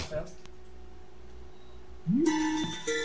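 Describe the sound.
A Skype incoming-call ringtone chimes over people talking: a bright tone that slides upward and holds, then a shorter tone near the end.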